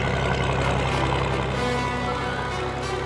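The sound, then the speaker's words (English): A heavy engine rumbles steadily as a former World War II tank drives across rough paddock country, with a constant low drone and a dense, noisy roar that stays loud and even throughout. “Well, today I came across the ultimate paddock basher, a former World War II tank rumbling across”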